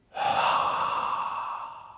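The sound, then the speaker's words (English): Slow breath out through the mouth during a belly-breathing exercise, a single breathy sigh that starts abruptly and fades gradually over about two seconds. “Let's breathe slowly in through our noses. Then slowly breathe out through our mouths.”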